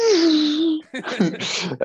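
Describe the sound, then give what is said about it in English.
A voice imitates a car's whining gearbox and wind, holding a sustained, slightly wavering hum before a short stretch of talk. “it's a whining sound of the gearbox, a bit of the wind, but it definitely has a futuristic sound.”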